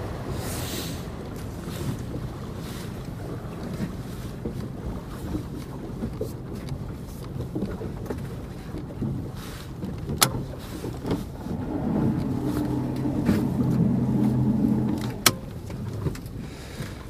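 A boat on a fishing-net trip crosses calm water near land, making a steady low engine drone mixed with wind noise, two sharp knocks, and a rumble that swells for a few seconds near the end.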